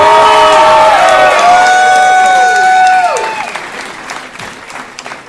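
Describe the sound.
Loud audience applause and cheering at the end of a show, with whistles and whoops over dense clapping, holding strong for about three seconds before tapering off into scattered claps.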